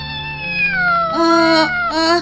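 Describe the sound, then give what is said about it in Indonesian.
An injured kitten meows in pain: a long, loud, wavering cry that drops in pitch, then a few shorter strained pulses, with no other sounds. “Kucingnya? Itu lihat kucingnya.”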